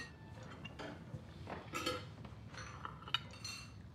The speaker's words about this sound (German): Gib mir mal den Teller.